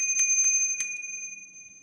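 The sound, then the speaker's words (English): An annoying bell, bright and metallic like a bicycle bell, rings in about four quick, high strikes that ring on and fade out, with no voices. “This is the annoying bell.”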